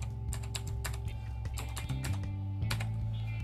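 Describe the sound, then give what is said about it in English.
Someone types a password on a computer keyboard, producing quick, irregular clicking keystrokes over a steady low hum. “I'll just type in my password”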